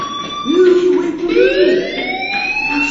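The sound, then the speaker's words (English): A fire alarm sounds with a loud electronic tonal wail. It holds steady, then slides upward in pitch as a second rising tone joins in. “Hey, do you hear that fire alarm? That means you should be outside.”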